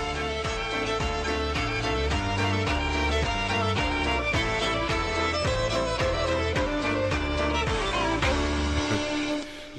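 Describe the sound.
Eurovision-winning pop song playing with a steady, pulsing beat and bright melodic lines, continuous and loud throughout and easing slightly softer near the end.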